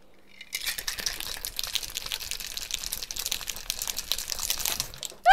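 A shaken carbonated alcoholic drink fizzes over after opening, with a sustained crackling hiss of bursting bubbles for several seconds, then a sudden louder burst at the very end.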